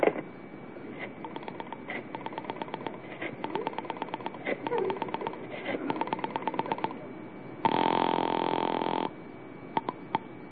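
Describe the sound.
Telephone being dialed to Ulrich 8900, heard as repeated trains of quick rotary-dial clicks, followed by a steady buzzing tone that stops abruptly, then a few last clicks.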